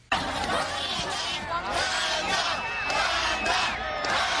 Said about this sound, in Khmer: ទស្សនិកជនរាប់ពាន់នាក់រួមមានជនជាតិខ្មែរឡាវថៃអាមេរិកនិងជាតិសាសន៍ផ្សេងៗទៀតឈររង់ចាំនិងស្រែកហៅឈ្មោះតារាសម្ដែងចម្បងប្រចាំកម្មវិធីនៅមហោស្រពតន្ត្រីនិងវប្បធម៌អាស៊ីអាគ្នេយ៍ Sabai Dee Fest ក្នុងទីក្រុង Chino